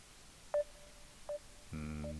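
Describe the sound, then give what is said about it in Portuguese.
Two short telephone dialing tones sound as a call is placed to a radio listener. A steady, buzzing line tone follows and continues to the end, with no voices. “Vamos lá ver se este nosso ouvinte atende a chamada.”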